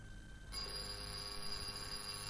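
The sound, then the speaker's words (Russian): A telephone bell rings steadily and loudly, starting after a short quiet moment and continuing unbroken to the end with a bright, even metallic tone. “Только бы она не вышла на звонок.”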